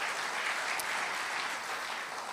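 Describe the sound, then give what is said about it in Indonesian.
A church audience applauds during a Christmas sermon with a dense, even wash of many hands clapping together, moderately faint and steady from start to finish. “Tepuk tangan dong buat Tuhan Yesus.”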